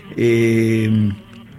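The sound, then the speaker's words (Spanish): A violin imitates a cicada in tango-flavoured music, holding a single buzzy bowed note for about a second before it cuts off. “Eso suena una chicharra hecha con el violín”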